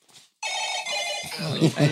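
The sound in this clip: A mobile phone ringtone plays a bright, tonal melody that starts abruptly and carries on for over a second, with talking heard alongside it toward the end.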